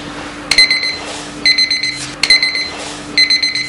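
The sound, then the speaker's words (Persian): An alarm clock ringing in four bursts of rapid, shrill electronic beeps, each burst made of several quick pulses separated by short gaps, loud and without voices. “نیما پاشو دیگه، ساعت خودشو کشت انقدر زنگ زد.”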